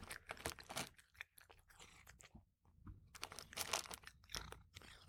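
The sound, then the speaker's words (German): A cat eats its food with faint, close crunching and chewing in irregular bursts. There is a brief pause partway through and no talk. “jetzt seid mal ganz leise, dann hört ihr nämlich, bleibst du hier und frisst, wie Olaf isst.”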